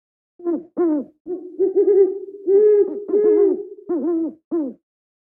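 Owls hooting in the distance near a palace: a run of low, wavering hoots from more than one bird, overlapping and repeating in a steady rhythm, with no voices.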